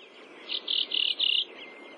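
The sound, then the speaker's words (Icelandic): A thrush sings a repeated call near a doctor's house on Flatey in Breiðafjörður: four short, high, bright notes in quick succession, sounding fairly clear above a faint steady background hum. “Í grennt við læknishúsið í Flatey heyrist fugl syngja kjör, kjör, kjör, kjör.”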